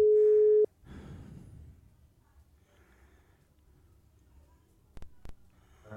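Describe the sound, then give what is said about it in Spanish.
A telephone tone sounds as a call is placed to a guest, a single steady electronic tone lasting about half a second, followed by faint breathing and rustling and then two brief sharp clicks. “Ya estamos haciendo la llamada, así que en un momento ya vamos a estar en contacto directo con nuestro querido hermano, profeta Daniel Calderón.”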